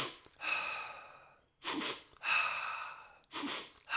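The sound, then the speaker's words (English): A breathing exercise of rapid breaths in through the nose followed by a slow exhale through the mouth. It forms a few breathy, hissing bursts of uneven length separated by short silences, heard alone. “do 2 quick breaths into the nose, like rapid fire, like, and then to breathe out through the mouth slowly”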